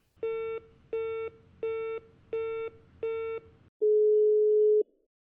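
A telephone busy signal after a dropped call gives five evenly spaced beeps, then one longer steady tone at the same pitch, fairly quiet and with no voices.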